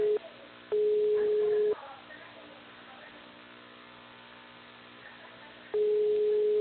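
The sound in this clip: Telephone tones sound while a call is transferred: long, steady mid-pitched beeps, each about a second, separated by a long pause with faint line hiss between.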